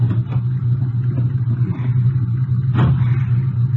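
A car engine runs steadily as the car pulls away after picking up a hitchhiker. It makes a low, continuous rumble with faint clatter and one brief knock near the end, with no talk.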